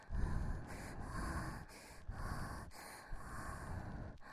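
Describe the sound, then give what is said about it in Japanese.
Heavy panting breaths from a person, a steady run of many rough, breathy huffs with brief gaps between them, fairly loud and alone without talk. “はあはあすんのもうやみつきになってんじゃん。”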